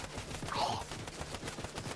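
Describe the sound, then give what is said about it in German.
Gunfire from a double-barrel weapon in a video game: many sharp shots follow one another closely in a dense, rapid burst at fairly even loudness, with no speech. “Das ist gerade die doppel Jäger. Ich dachte, man kann mit der nur einmal schießen. Nein, zweimal. Öfter schießen.”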